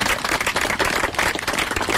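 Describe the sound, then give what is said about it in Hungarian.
An audience applauds at a memorial ceremony to honor the man who funded the monument, with dense, irregular clapping that stays steady and fairly loud from start to finish. “egy tapsot kérlek”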